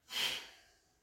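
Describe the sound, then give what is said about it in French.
A single soft exhale through the nose during a breathing exercise: a short, airy rush that swells quickly, then fades gradually over about a second, faint and alone. “Et là aussi, l'expire peut se faire par le nez. Ça peut dégager les narines d'ailleurs.”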